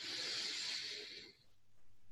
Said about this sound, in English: Taking a deep breath